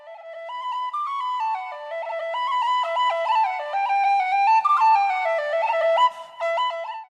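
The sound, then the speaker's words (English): Irish tin whistle playing a traditional jig: a bright, breathy solo melody of quick, high notes that step up and down in a lively, steady rhythm. “My favorite British instrument comes from Ireland and is called a tin whistle. It's a small flute made with tin, étain. It can be heard in traditional Irish music called jigs. It sounds like this.”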